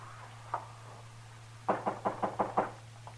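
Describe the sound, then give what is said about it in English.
Knuckles rap on a door in a Western drama: one lone knock, then a quick run of six firm knocks, then a faint final tap, over a low steady hum. “Who is it? The marshal. Open up. About asleep, Mr. Dillon. I couldn't figure who was knocking.”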